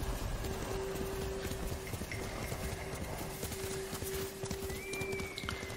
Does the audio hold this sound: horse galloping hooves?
yes